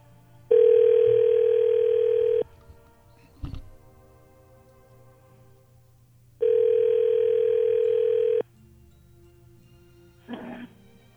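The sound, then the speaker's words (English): A telephone ringback tone plays while a call is placed: two long, steady buzzing tones separated by a several-second pause, each followed by a brief click. “let's dial him up and see what's going on.”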